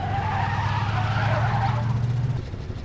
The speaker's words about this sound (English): makes a sweeping U-turn.